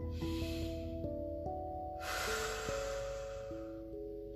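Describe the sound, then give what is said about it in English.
A slow breath taken in and let out makes two soft, airy swells, one after the other, over gentle sustained musical tones. “Take a breath with me.”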